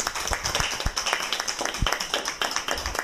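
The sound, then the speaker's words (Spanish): Applause from an audience, many hands clapping in a dense, even patter that holds steady throughout at moderate volume. “Ese aplauso también para Marina, por favor.”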